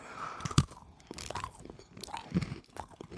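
Someone bites into a crunchy, chocolate-sprinkled biscuit, making a few quiet, crisp crunches followed by chewing, with no talk.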